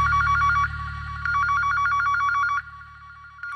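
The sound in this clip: A telephone rings in rapid trilling pulses, in two bursts with a short gap between them, over a low steady hum.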